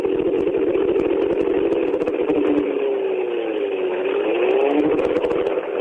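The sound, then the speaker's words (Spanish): A race car engine runs at under a quarter throttle, just enough to spin the rear tyres and warm the transmission in Berlin. It makes a loud, steady drone whose pitch wavers, dipping and rising gently throughout. “Ahí está, menos de un cuartito de acelerador. Apenitas para que giren los neumáticos traseros, para que se vaya elevando la temperatura de todos los elementos de la transmisión.”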